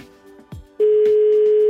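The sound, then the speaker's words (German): A telephone tone sounds as a call is placed: a few faint clicks and short blips, then a loud, steady, unbroken tone that holds to the end. “Dann rufen wir jetzt mal an.”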